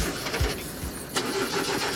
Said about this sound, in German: Draußen steht eine Limousine für euch. Steigt mal ein und anlassen.